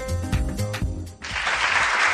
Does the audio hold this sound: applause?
yes